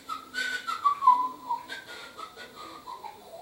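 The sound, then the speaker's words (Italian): A person whistles a wavering tune, with notes gliding up and down in a middling pitch range. The whistling is fairly soft and continuous, with a few brief swells in loudness. “Dopodiché cominciò a fischiettare e rivolgendosi a Bildad disse:”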